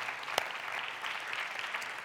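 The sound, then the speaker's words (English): An audience at a church service claps in a short, continuous patter of applause, faint and even throughout, with one sharper clap near the start. “would you just give our online folks a great big hand and welcome them to our service today?”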